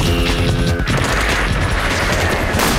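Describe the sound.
Gunfire in a shootout in a market, with cartel gunmen, a shotgun and a machine gun all in the fight: a dense, loud barrage of shots and booms that blurs into a continuous roar, with a sharp burst near the end.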